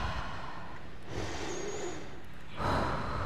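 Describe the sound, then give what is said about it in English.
A deep breath taken during a church service: a soft, drawn-out rush of air that holds steady, then swells into a stronger, breathier burst near the end. “Let's all just take a deep breath.”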